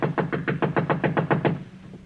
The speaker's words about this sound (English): Knock again.